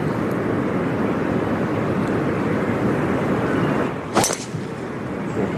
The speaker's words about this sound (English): Yeah, that's a better tee shot there from Shin. Right down the middle.